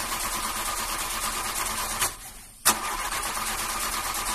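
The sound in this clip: A taxi engine runs with a steady mid-pitched drone, briefly drops away, then fires again with one sharp burst and settles back into a loud, even idle.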